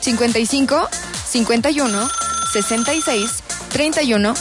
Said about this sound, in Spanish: ¡Ay, tenemos llamada!